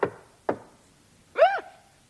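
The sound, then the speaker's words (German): Two sharp knocks on a workshop door, about half a second apart, each a short dry rap that fades quickly, followed by quiet. “da hat's da jetzt nicht geklopft? An die Werkstatttür?”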